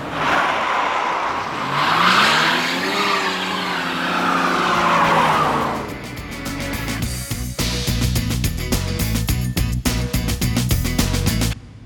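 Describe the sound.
A car in a chase skids hard, its tires squealing with a wavering pitch for about six seconds, then a loud, rough engine roar takes over with rapid pulsing.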